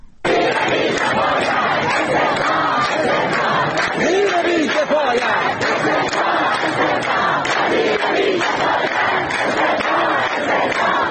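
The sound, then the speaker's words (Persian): Crowd of protesting teachers in Shiraz and Sanandaj, Iran, chanting together: loud, continuous massed voices with shouted rhythmic calls that hold steady throughout. “همسان‌سازی معلمان زندانی و آموزش رایگان و با کیفیت خواندند اعتراض کردند. این بخشی از صدای معترضان در شهرهای شیراز و سنندج است.”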